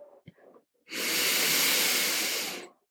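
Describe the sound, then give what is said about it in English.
A single long, steady breath hisses for well over a second during a slow box-breathing exercise, preceded by a few faint, soft breathy puffs. No talking is heard. “Breathe in. Hold, breathe out.”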